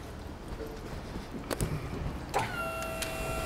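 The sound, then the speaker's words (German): A truck's rear tailgate opening on a narrow city street in Hannover, with two sharp latch clunks about a second apart followed by a steady, high-pitched electric motor whine that holds to the end, over faint background hum. “Okay, dann können Sie einmal gerne noch die Klappe aufmachen.”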